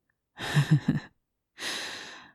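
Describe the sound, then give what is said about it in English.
Heavy, strained breathing under stress, with a rapid heart rate: a shaky, stuttering breath, then after a pause a long, breathy exhale, fairly faint and alone. “My heart rate is increasing and my breathing is getting heavier.”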